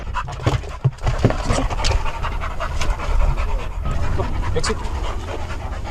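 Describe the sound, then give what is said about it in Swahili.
Trained detection dogs that sniff out landmines, contraband, explosives and weapons in South Sudan pant rapidly and continuously, a loud, rough, breathy rhythm that runs through the whole clip. “Hawa ni mbwa maalumu wenye mafunzo ya kutambua mabomu ya kutegwa, magendo, vilipuzi na silaha hatarishi.”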